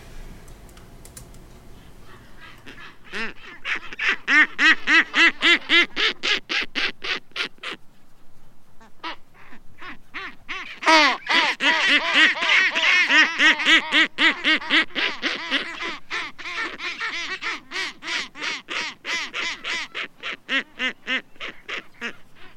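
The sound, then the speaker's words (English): A seabird gives a warning call near its nest: a long, rapid series of harsh, nasal, quacking calls. A short quiet gap breaks the series near the middle, then the calls resume loudly and keep pulsing steadily. “So they give you this warning call, like, you're in my territory. You're too close to my nest.”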